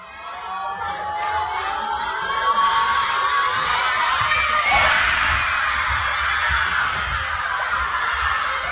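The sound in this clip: Schoolchildren gathered at school to watch Austria's first World Cup match in 28 years cheer and shout at kickoff, a crowd of young voices swelling to a loud peak midway and staying excited to the end.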